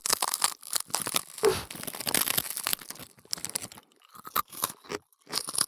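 Crunching on a good-quality rice cracker, with many dry, crisp bites and chews in irregular bursts separated by brief pauses, and no talking.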